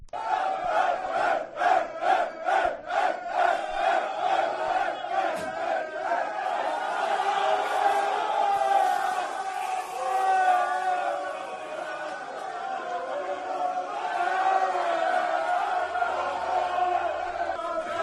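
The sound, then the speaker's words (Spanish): A basketball team celebrates in the locker room after winning the national cup. Rhythmic clapping opens the scene, then many voices break into loud, sustained chanting and shouting. “Y hay que hablar también de la Copa del Rey de baloncesto. Este es el sonido del campeón.”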